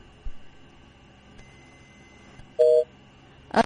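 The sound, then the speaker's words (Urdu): Telephone tones as a phone call drops: faint background hiss, a short steady beep, then a brief harsher burst of tone at the end. “Haider بھائی کی کال drop ہو گئی”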